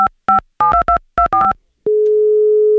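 A quick series of telephone keypad tones as a number is dialed, followed by a long, loud, steady tone on the line as the outgoing call connects.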